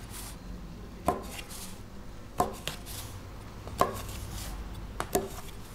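A knife cuts through dough in a metal baking tray, giving four sharp clacking knocks spaced about a second apart and a couple of fainter taps between them, over a quiet low background.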